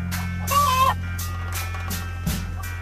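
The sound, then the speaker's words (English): Recorded chicken clucking plays back as a few short, sharp bursts with a brief whistling tone early on, over a steady low electrical hum. “How about some turkey? Keep the chicken going. This supplies the turkey also.”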